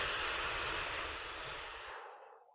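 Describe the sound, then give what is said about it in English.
A long, slow exhale during a breathing exercise for calming down: one continuous, soft breathy rush of air that holds steady, then gradually fades away to silence, with no talking. “breathing in through your nose as long as you can and exhale even longer, very slow.”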